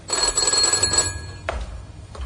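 A telephone bell rings in a rapid, continuous metallic trill for about a second, then stops, leaving a near-quiet stretch broken by a couple of brief soft knocks.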